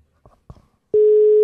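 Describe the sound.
Telephone dialing and call tone: a few faint, short blips, then a loud, steady, pure tone that starts abruptly and holds to the end.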